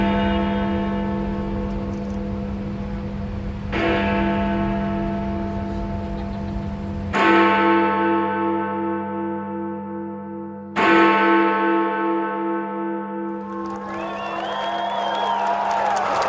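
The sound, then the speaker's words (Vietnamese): The deep, cracked hour bell of Big Ben in central London strikes slowly several times. Each heavy stroke leaves a long humming decay, and a crowd whoops and cheers at the end. “quý vị nghe cùng một tiếng chuông trầm nhưng gõ vào chuông ở khoảng cách khác nhau đến chỗ bị nứt mẻ do hai cái búa khác nhau thì sẽ tạo ra hai âm thanh hơi khác nhau một chút”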